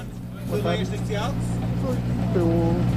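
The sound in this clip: A Skoda Fabia R5 rally car at the Rally da Calheta gives a steady, low engine rumble as it idles after pulling up, heard continuously beneath a man talking.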